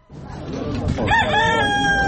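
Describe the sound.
A rooster crows at a small-animal exhibition where pigeons are also on show. It is one loud, drawn-out crow that swells in pitch partway through and holds over a busy background.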